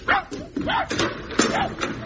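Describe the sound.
A dog gives a few short barks and whimpering yelps, each rising and falling in pitch, with brief gaps between them.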